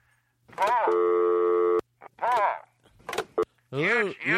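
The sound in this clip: A telephone line tone sounds as a caller is put through on a call-in line: a steady, flat tone holding for about a second, set between short bursts of voices.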